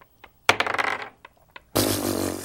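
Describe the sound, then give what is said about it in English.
Dice rolled during a tabletop role-playing game: a sudden rattling burst of rapid clicks and knocks, a few faint taps, then a loud, steady clattering rush that lasts to the end. “I'm going to use 2 out of my 3 dice, expertise dice, for deadly strike.”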